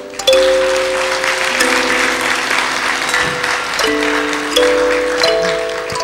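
An audience welcomes a surgeon guest at a spiritual gathering with sustained, dense applause that runs through the whole stretch while sustained musical tones hold underneath.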